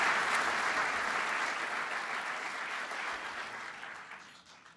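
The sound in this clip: Audience applause welcomes Secretary of Defense Chuck Hagel, a dense, steady wash of clapping that slowly tapers off over several seconds.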